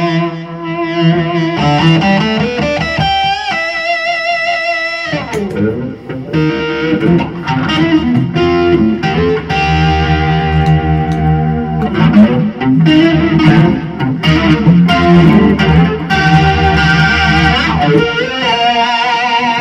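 Electric guitar played through effects, heavy with distortion and chorus, slightly out of tune. Continuous loud riffing with sustained, bending notes runs for about twenty seconds with no voices.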